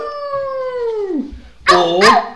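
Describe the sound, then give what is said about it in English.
Human voice imitating a werewolf howl: one long, sustained howl that slides downward in pitch and fades, followed by two shorter, louder yelping howls. “would you prefer to be a werewolf that's got howling problems, so all he does is walk around just going,”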